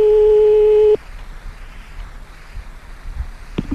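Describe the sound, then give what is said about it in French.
Telephone line tone heard while redialing the same number: one loud, steady tone holds for about a second and then cuts off, leaving faint line hiss and a brief click near the end. “on rappelle une deuxième fois, toujours, on essaie toujours deux, trois fois le même numéro”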